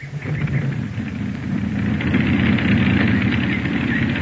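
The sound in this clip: An aircraft engine runs at idle just after being started for a test flight, giving a loud, continuous rumbling drone that grows slightly fuller partway through, with no voices.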